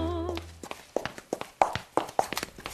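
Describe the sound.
Tapping from a slipper maker crafting slippers by hand in Subotica: a brisk, uneven run of many sharp taps and knocks, fairly loud. A short tonal sound comes just before the tapping starts.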